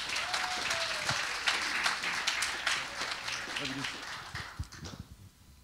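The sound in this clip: Audience applause at a church gathering as a guest speaker comes to the stage: steady clapping from a crowd that gradually thins out near the end, with a voice briefly heard over it.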